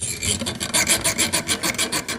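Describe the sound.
A small hand saw cuts into a wooden crucifix in an artist's studio, with many quick, rhythmic back-and-forth rasping strokes, loud and steady, with no talk.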